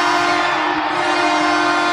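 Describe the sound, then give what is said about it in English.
A VIA Rail train horn used as a hockey goal horn blares in one loud, continuous, steady blast that holds without a break for the whole clip. “The big difference, you know, Sen's going to have the Via Train horn.”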